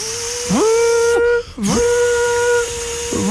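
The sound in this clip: A voice imitates a Minipimer hand blender whipping cream: a loud, buzzing, high whine held in long steady tones, broken by a short gap, with quick pitch swoops as each tone starts and stops.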